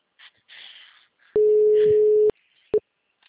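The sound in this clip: A telephone busy signal on a call that goes unanswered: a steady low electronic tone holds for about a second and is followed by one short beep, with faint muffled sounds before it.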